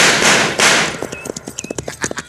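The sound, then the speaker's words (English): Gunfire rings out in a Western shootout with cattle rustlers: two loud, broad shots, then a quick run of rhythmic hoofbeats as horses gallop off. “They stop shooting and getting on their horses.”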